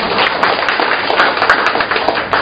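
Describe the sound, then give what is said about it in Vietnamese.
A church audience applauding: loud, dense, even clapping that continues unbroken for the whole clip. “Đó, một tràng pháo tay cho những người dám.”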